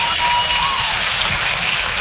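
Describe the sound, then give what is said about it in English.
Audience applause at a live stand-up comedy show: dense, steady clapping from a crowd, loud and continuous for about two seconds with no pauses, a broad rain-like wash of many hands together. “You're damn right we should applaud.”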